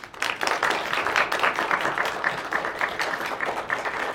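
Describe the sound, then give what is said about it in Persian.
An audience applauds with dense, continuous clapping that stays loud and busy throughout. “حالا دست بزنین.”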